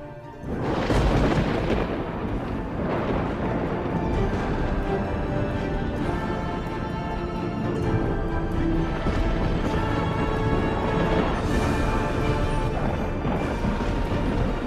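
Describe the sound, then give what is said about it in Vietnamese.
Thunder crashing with lightning in a stormy sky: a loud, continuous roar of rumbling across the whole stretch, with a few sharper crashes rising out of it. “Tiếng sấm vang chớp giật, khung cảnh trở nên chói lòa cả mắt.”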